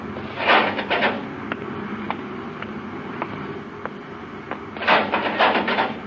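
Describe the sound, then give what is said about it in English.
A spaceship's inner hatch opens in a radio-drama sound effect: a hissing, sliding mechanical rush swells at the start and again near the end, with a few faint clicks and ticks over a steady low hum between. “Open the inner hatch”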